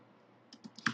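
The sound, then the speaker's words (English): A few quick, faint keystrokes on a computer keyboard, clicking in a short irregular burst after a brief quiet start. “Hold on. I'm trying to type something in here.”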